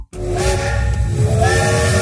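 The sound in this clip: A steam train whistle blows a steady, shrill tone over a loud rushing hiss of steam, starting abruptly after a brief silence and holding for about two seconds.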